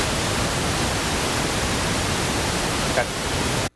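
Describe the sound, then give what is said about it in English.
White noise: a constant, even static hiss spread across the whole audible range. It runs loud and unchanging, then cuts off abruptly just before the end. “it's a constant static noise made up of equal parts of all audible sound frequencies. It's basically used to block out other noises. It sounds a little something like this.”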